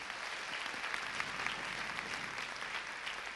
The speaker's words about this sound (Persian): یه دست برای خودتون بزنید مرسی